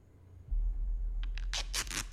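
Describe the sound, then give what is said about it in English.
Tape is pulled off a roll and wrapped in a scene from a The Batman trailer. A low rumble starts, then a quick series of harsh, rasping tears follows, growing louder and closer together toward the end. “With some tape noise. Oh, this is cool. What is... Is he taping up, like, his wound or something?”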